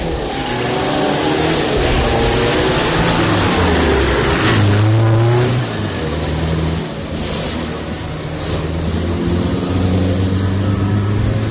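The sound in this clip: A newly assembled car being test-run for faults, its engine revving hard with extra throttle in a loud, continuous mid-pitched roar that swells and eases over about eleven seconds.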